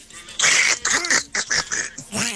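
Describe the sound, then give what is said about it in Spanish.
A greeting spoken in a Donald Duck voice imitation, a buzzy, nasal, quacking voice delivered in several quick bursts that mimic a cartoon duck. “Me mandan un saludo con la voz del pato”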